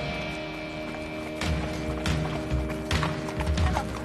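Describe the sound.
Hoofbeats of a horse galloping during a riding lesson: irregular dull thuds and clops over a steady, humming tonal background, fairly loud and without talk.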